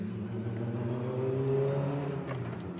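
Rally car engines drone steadily as the leaders arrive at a timing checkpoint during a rally event, a sustained motor hum with a slight swell in the middle and no voices.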